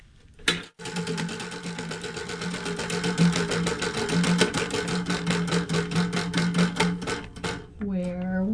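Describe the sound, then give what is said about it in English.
A prize wheel spins with a fast, steady run of loud mechanical ticks lasting about seven seconds, then stops, and a voice briefly follows. “Oh, it's spinning backwards. The wheel has her own mind.”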